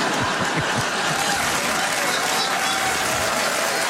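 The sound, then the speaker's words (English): An audience at a comedy show in Winnipeg breaks into steady, full applause, a thick wash of clapping that holds at an even level for the whole stretch. “Oh, Regina will really appreciate that applause break.”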